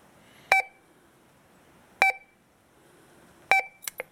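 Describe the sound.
Three evenly spaced electronic beeps from a mobile phone used as a sound beacon, brought along for a swim. The beeps are about a second and a half apart and are followed by a couple of quick, fainter chirps.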